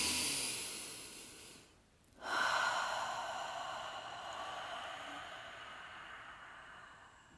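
Deep breathing during a hands-over-heart meditation practice: a long, airy breath fades away, a brief silence follows, then a second full, hissing breath swells up and slowly trails off.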